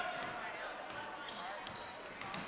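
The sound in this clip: Basketball dribbling, a behind-the-back dribble during a women's game; a few muted bounces of the ball on the court are heard beneath steady crowd noise.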